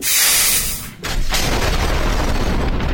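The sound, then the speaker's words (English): Missiles fired at a small transport vessel, which explodes: a loud, bright hissing rush, a brief drop, then a heavy boom that becomes a long, steady rumbling roar. “Prepare to fire missiles on my command. Fire!”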